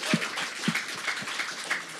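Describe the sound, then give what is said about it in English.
Audience applause at a live event in New York City: thin, scattered clapping from a modest crowd, with a few sharper claps standing out over a soft, continuous patter. “So give it up for yourselves, New York City.”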